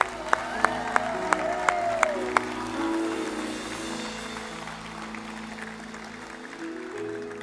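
A church audience applauds the newly baptised at a morning service: broad, sustained clapping, with a few sharp, loud claps near the start that settle into a steady wash of crowd noise.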